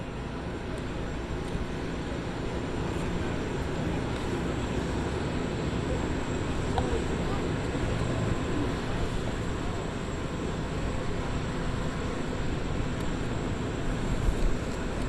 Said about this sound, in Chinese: 车队缓缓启动，驶出安德鲁斯空军基地。